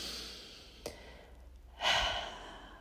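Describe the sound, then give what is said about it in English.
A group taking a deep breath together: a quiet stretch, then a single full, breathy exhale that swells and fades like a sigh. “So I just want us all to start by taking a deep breath before we launch into this one, myself included. So let's do it all together right now.”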